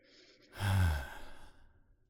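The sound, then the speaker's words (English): A deep breath into the belly during a guided relaxation exercise: one long, breathy, sigh-like exhalation that swells quickly and then trails away softly, heard alone and fairly quiet. “So I'm going to invite you to close your eyes and take a deep breath into your belly.”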